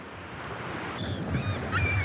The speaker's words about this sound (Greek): Ακούες τη θάλασσα? Μας ψιθυρίζει σιγά.